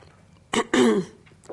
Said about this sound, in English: My throat has been playing games with me for about a year, so you'll just have to excuse me. I just have to make these horrible noises every once in a while just to clear it, like right now.